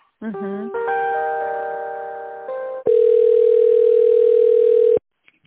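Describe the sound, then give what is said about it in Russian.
Telephone line tones sound as a call is transferred: first a layered, chime-like electronic tone that shifts through a few steps for about two and a half seconds, then a single steady, mid-pitched beep that holds for about two seconds and cuts off abruptly. “Сейчас я переведу звонок, попробуйте поговорить, если это он.”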